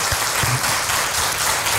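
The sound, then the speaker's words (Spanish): Audience applause for a doctor at the end of a health talk on fasting: dense, steady clapping from many hands that stays loud and even throughout, with no voices standing out. “Te damos un aplauso con todo cariño al doctor.”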